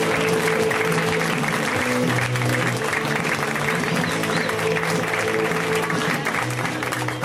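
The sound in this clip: An audience applauds a comedian being introduced at a stand-up comedy show, with dense, steady clapping from many hands that stays loud and even throughout, with no talk over it.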